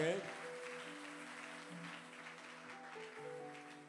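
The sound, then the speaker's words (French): A church audience applauding a visiting guest at a Sunday service: faint, steady clapping spread across the whole stretch, with sustained held tones beneath it. “Il est venu pour clôturer avec nous. Que Dieu te bénisse pour cette marque. Est-ce qu'on peut acclamer pour lui?”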